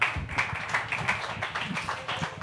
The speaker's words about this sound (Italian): Un applauso a Veronica De Ricis.